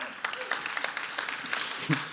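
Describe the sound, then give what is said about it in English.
A church audience claps and cheers during a service, giving scattered, fairly soft hand claps with brief whoops mixed among them. “We give praise, Real Life style. We go, yay, woo.”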